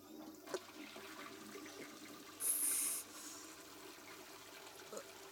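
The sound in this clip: A toilet flushes in a brief burst of hissing, rushing water lasting under a second, set against a faint, quiet background.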